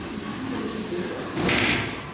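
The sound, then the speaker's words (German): A sliding door to a hospital delivery room is pushed open at night, giving a brief swelling whoosh of rolling friction over a steady low background hum, followed by a quieter settling. “schiebt die Tür zu einem der Kreissäle auf”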